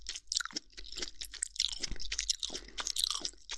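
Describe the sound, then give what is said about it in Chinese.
Crisp, crunchy bites and wet chewing of food for close-up eating sounds. Many irregular crackles and munching noises follow one another, with no speech. “啊，再吃一口。好吃，”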